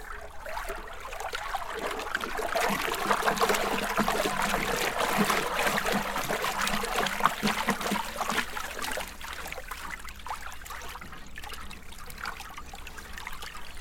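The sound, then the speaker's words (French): Water swirled by an arm into a whirlpool: a continuous rushing, sloshing wash that swells slightly through the middle and eases toward the end, with no voices. “Donc là il s'agit de faire un tourbillon avec l'eau.”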